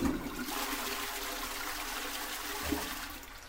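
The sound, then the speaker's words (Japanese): A toilet flushes at two in the middle of the night: a faint, steady rush of water runs throughout, with a slight gurgling surge near the end. “私の耳にはちゃんと届いているんですよ。深夜2時、トイレの流れる音が。”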